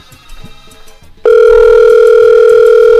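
A telephone tone while a call is being placed: faint, scattered sounds, then an abrupt, loud, steady electronic tone that holds without a break.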